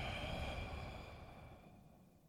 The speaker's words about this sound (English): So we'll inhale deep through the nose. Exhale everything out.